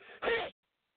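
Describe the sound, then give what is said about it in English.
A single sneeze: a short breathy intake followed by a sharp, forceful burst that cuts off abruptly, heard alone. “sorry, I had to sneeze there.”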